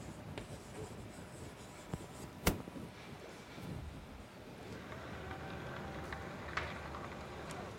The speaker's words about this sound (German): Ich schreibe jetzt mal direkt hier drunter weiter.